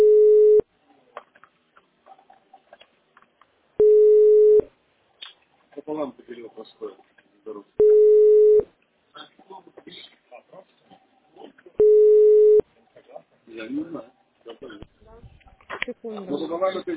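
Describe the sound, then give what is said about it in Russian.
Ringback tones sound while a phone call is being placed: four steady, mid-pitched beeps, each under a second long, repeat evenly about every four seconds, with talking heard in the gaps between them. “Сейчас вот звоню.”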